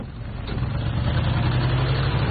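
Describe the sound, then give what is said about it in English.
A car drives off. Its engine rumble swells over the first second, then holds at a steady, moderately loud level with no voices. “They drive off, and Jeff takes a different road to them.”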